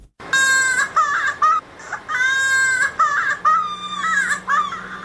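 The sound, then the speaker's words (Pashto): An infant crying loudly at the start of a report on polio vaccination in Helmand, Afghanistan: high-pitched, strained wails in several long bursts separated by brief gasping breaks, alone without talk. “دغه تفصیلي راپور چمتو کړی چې د یو ماشوم په ژړا پیلېږي”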